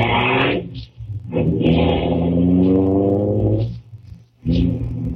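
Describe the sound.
A car engine hums steadily as a nervous learner driver heads to her licence test with two passengers. The motor drones in a low, even tone, dipping briefly near the one-second and four-second marks.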